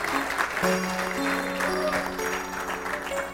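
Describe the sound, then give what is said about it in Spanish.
An audience clapping at an evangelical church service: dense, steady applause that goes on with sustained musical tones holding underneath. “Denle un aplauso a nuestro Dios.”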